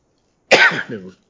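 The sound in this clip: A single cough from a tickle in the throat: a sharp burst that trails into a short, rough voiced rasp, heard alone against silence.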